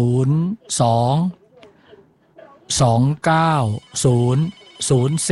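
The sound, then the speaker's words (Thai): A telephone rings as a listener calls in to a live phone-in line, sounding in repeated loud, tonal bursts separated by short quiet gaps. “เราเปิดสายเบอร์เดียวนะรับทีละท่านทีละท่านนะครับมีผู้ฟังโทรมาแล้วครับ”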